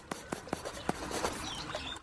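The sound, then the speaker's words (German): Pen writing a note on paper, heard as a quick series of short, faint scratchy strokes. “Dann schreibe ich ihr einen Zettel.”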